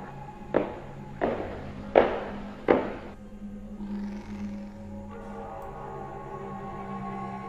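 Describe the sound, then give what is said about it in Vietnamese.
Soft footsteps climbing a wooden staircase at night: four distinct knocking steps at an even pace, followed by fainter, low creaking and rustling. “bác Cổ nghe có tiếng bước chân đang đi rất nhẹ lên cầu thang gỗ. Tuy nhiên, trong đêm đen thì tiếng bước chân ấy thoáng nghe ra cũng rõ lắm.”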